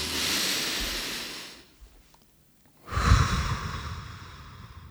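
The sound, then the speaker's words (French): A deep breath taken as a pause: a long, airy breath sound, a moment of silence, then a second, stronger breath with a breathy low rumble. “Voilà, j'ai bien respiré, là.”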